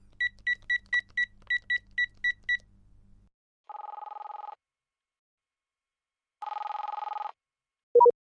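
Telephone beeps come first as a rapid string of short, high electronic pips. Two longer, lower buzzing tones follow as a number is dialed, and one brief tone ends it.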